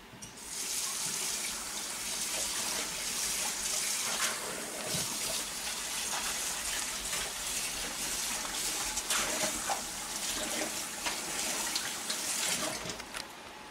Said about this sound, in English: Now I've got to wash out my bowl so we can put them back in there.